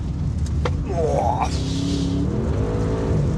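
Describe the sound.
An SUV engine accelerating while being steered and braked, a loud continuous engine note that climbs in pitch and then holds steady.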